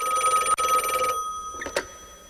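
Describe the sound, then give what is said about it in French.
A telephone bell rings at the opening of a French song: a bright, rapid trilling ring lasting about a second, followed by a short pause and a few brief, faint noises. “Moi, une chanson qui commence par une sonnerie de téléphone, ça me rend heureux.”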